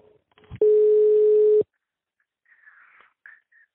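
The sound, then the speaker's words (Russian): A click as a telephone call is hung up, then one loud, steady, mid-pitched dial tone that lasts about a second and stops abruptly, followed by faint scattered noise. “какого рожна вы трубку вешаете?”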